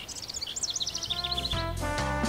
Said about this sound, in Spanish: Por eso, este también se conoce como el venteveo pirata.